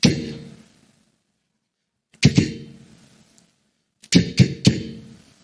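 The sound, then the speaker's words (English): An AK-47 rifle fires six sharp, loud cracks that decay quickly: a single shot, then a quick pair, then a rapid burst of three, with silence between the groups. “When an AK-47 shoots, it sounds like this.”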